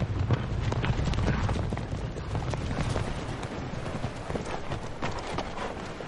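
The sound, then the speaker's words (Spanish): Hooves clip-clop as several horses with riders arrive: a dense, steady clatter of many overlapping hoofbeats that eases slightly toward the end. “Llegan varias amazonas a caballo.”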